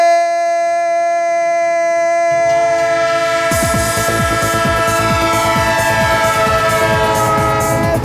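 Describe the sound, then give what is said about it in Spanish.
A train horn sounds as a sustained, steady chord of tones throughout. A low rumble joins, then a rhythmic rail clatter of repeated clacks continues under the horn. “El tren de Onda Cero que va a recorrer este domingo con deporte a bordo.”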